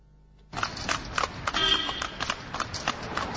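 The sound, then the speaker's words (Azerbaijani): Hooves of a horse pulling a carriage clip-clop along a city street during the spring holiday. After a quiet start, a dense, steady run of many sharp hoof strikes rings out continuously at a brisk walking rhythm. “Amma elə ki, küçədə bacada at fayton göründü, onda hamı tamaşaya durur.”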